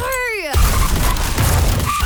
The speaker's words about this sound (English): Every single piece of this jingle was made from the sound of a bingle.